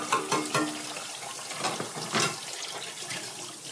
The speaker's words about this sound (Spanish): se escuchaba detrás del sonido del chorro intermitente del agua. Mientras enjuagaba la loza, Molo no dejaba de pensar. Al terminar de escurrir el último utensilio y cerrar el paso del agua